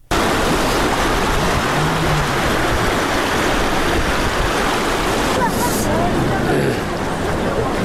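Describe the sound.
Water rushing and flowing after rains in Uruzgan, Afghanistan, a dense, steady roar that holds throughout with a voice speaking over it.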